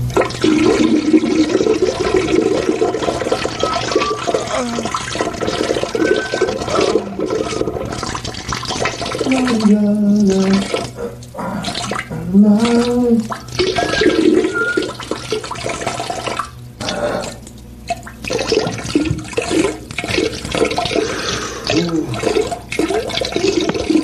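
Toilet flushing to clear a smear stuck in the bowl, a long, loud rush of gurgling water with swirling surges that rise and fall in strength for many seconds.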